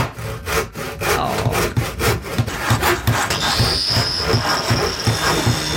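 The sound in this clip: Many rhythmic back-and-forth strokes of a handsaw cutting wood, made by craftsmen renovating a house and working on rotten wood in a garage. The rasping strokes are steady and fairly loud.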